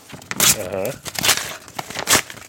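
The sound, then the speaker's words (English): A sealed paper envelope being torn open, with crinkly rustling and tearing bursts over a few seconds as a person talks. “I have this envelope here that I sealed before we started playing. Uh-huh. And I'm going to open it now.”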